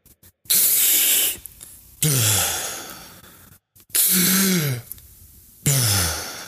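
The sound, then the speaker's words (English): Deep breathing during a breathing exercise: a full chest-raising inhale followed by a relaxed let-go exhale. Four loud, airy breath bursts with short pauses between them, and the later exhales carry a low voiced sigh. “a max inhale, raise your chest, breathe fully in, and then let it go.”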